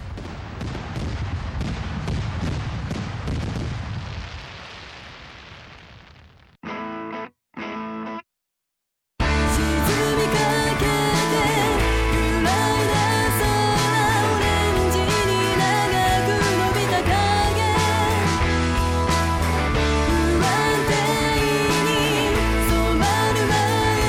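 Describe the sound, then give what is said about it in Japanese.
Fireworks at the Okazaki fireworks festival: many rapid popping bangs and crackles that gradually fade, followed after a brief gap by loud, steady music. “花火花火やった”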